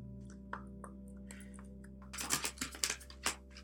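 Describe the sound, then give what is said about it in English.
Oracle cards shuffled and a love card pulled from the deck: faint taps at first, then a burst of several crisp papery flicks and rustles over a low, steady hum. “I'm going to pull a love card because it's Venus Day.”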